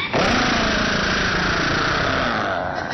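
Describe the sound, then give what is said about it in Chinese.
An old car engine that runs on soybean oil and had to be push-started, now firing up and running with a loud, rough, continuous rattling drone that stays steady throughout, with no voices. “这车可就发动起来了， 不容易，还真着了。”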